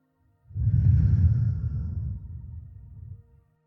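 During a guided meditation, a slow, deep inhalation drawn in over about three seconds makes a soft, breathy rush that swells quickly and then gradually fades.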